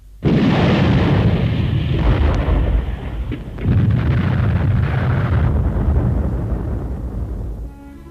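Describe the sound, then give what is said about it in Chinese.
Artillery shells explode on an empty position. A sudden loud blast opens into a long rumble, and a second blast hits partway through before the roar gradually fades out. “队伍刚刚撤走，敌人的炮弹便在空阵地上爆炸了。”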